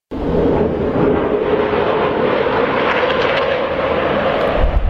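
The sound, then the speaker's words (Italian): Israeli military jets flying over Beirut: a loud, sustained engine roar that stays steady and dense throughout, with no break and no voices. “Questo è il suono di jet israeliani che stanno sorvolando Beirut”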